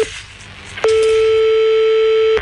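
Telephone ringing tone while calling back after being cut off: a stretch of soft line hiss, then one sustained, steady buzzy tone lasting about a second and a half.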